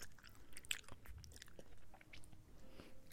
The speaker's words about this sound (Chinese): 你吃一口，姐姐也吃一口，咱们一人一口好不好？